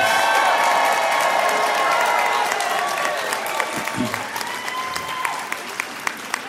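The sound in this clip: Audience applauding and cheering for the NFB Training Center at a convention, loud and full at first, then thinning to scattered individual claps, with a voice heard over it.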